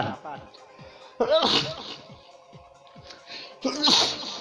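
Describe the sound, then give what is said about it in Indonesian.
Two loud, sudden sneezes from a person who had been coughing, separated by quieter vocal sounds and breaths. “Aduh, gue batuk kan, gue jadi bersin tuh.”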